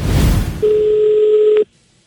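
A telephone tone sounds while a taxi is being called. A loud, rough burst comes first, then a steady electronic tone holds for about a second and cuts off, followed by a faint short beep.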